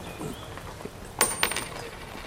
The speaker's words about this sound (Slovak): Čo to? Len jedna minca?